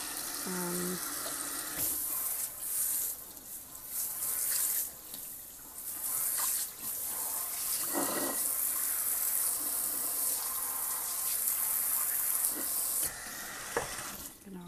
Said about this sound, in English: gonna lay the whole thing down with power wash. Give it just a second.